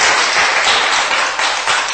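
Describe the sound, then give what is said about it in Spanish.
A church audience claps in praise during a service, a dense, continuous wash of many hands with no gaps, loud and even throughout. “Dele palmas porque Él es bueno en gran manera con nosotros, hermano.”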